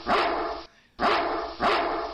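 A dog barks three times, loud, full woofs with a short gap after the first and a quicker follow-up between the second and third, with no talk.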